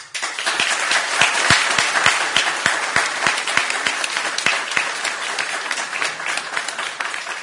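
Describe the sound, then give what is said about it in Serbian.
Audience applause at a live sung and recited performance, dense and steady throughout, with individual sharp claps standing out at a fairly regular pace. “Sa vašim aplauzom nabraću malo više minutaže.”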